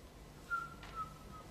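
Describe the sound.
A woman whistles softly, holding a thin, steady note that stays faint throughout.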